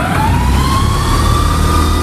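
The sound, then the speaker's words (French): The air compressor of a 1974 electric locomotive starts up with a loud, continuous mechanical drone. A whine climbs slowly in pitch above it. “Je vais pouvoir monter le pantographe et là, je mets en route le compresseur.”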